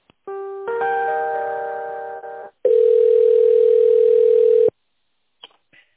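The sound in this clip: Telephone line tones during a call transfer: a steady buzzing tone lasts about two seconds, then after a brief gap a louder, purer continuous tone holds for about two seconds before cutting to near silence with a couple of faint clicks.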